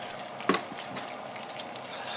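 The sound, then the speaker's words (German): Flour tipped into a wet, sludgy mixture makes a single soft splat early on, followed by faint, scattered mixing noises. “Mal ein bisschen Mehl rein. Flatsch!”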